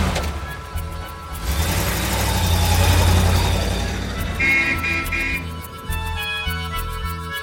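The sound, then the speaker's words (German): The engine of a fast touring car rumbles as it drives through Paris at night, a low droning roar that swells to a peak and then gradually eases off. “Gegen 10 Uhr abends passierte das Auto die Porte de Vincennes. Um 10.15 Uhr hielt es in einer Seitenstraße des Boulevard des Batignolles.”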